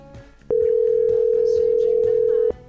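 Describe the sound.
A telephone line tone sounds while a call is placed to a mobile number: one steady, unbroken mid-pitched tone starts abruptly, holds for about two seconds, then cuts off sharply.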